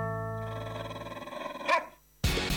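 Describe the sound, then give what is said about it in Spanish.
A dog barking in a radio station jingle: a drawn-out, wavering, processed bark ends in a short sharp yelp. After a brief gap, a loud burst of sound cuts in. “mordete la cola y ladra con nosotros”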